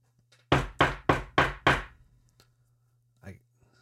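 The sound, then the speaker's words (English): Five firm, evenly spaced knocks on a door sound in quick succession, then the room goes quiet apart from a faint, brief thud near the end. “So let me start by saying, someone at the door.”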